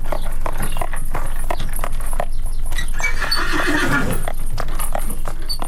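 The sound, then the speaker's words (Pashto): Shod horse hooves clip-clop on the narrow streets of an old European city, as a tourist carriage passes. Many sharp, evenly spaced knocks run throughout. “لا هم د اروپا د زړو شهرونو په تنګو کوڅو کې د آس د نالونو ټک ټک سړی په خونو وختونو ته بیایي”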